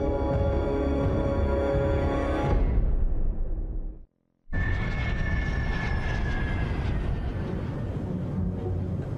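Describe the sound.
An airplane in flight, shortly before landing, gives off a continuous roaring engine drone with a broad, rumbling low end. The sound cuts out briefly midway, then the steady roar resumes.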